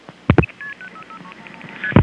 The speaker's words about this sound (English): Dialing 3111 this time.